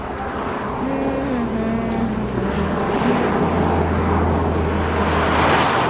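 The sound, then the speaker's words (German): An estate car drives up and races past, a steady low engine drone under rushing road noise that swells slightly toward the end. “Der Kombi fährt direkt auf das Rücklicht zu.”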